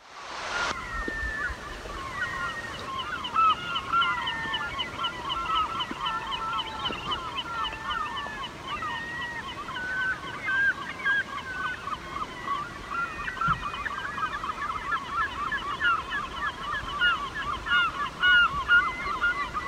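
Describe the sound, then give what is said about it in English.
Loons call from the water of a foggy lake, heard from a dock. Many wavering, overlapping wails and tremolos run continuously through the whole stretch at a steady, moderate level, with no talking. “And as we stood on the dock, we could hear the loons. We couldn't see them, but we could hear them.”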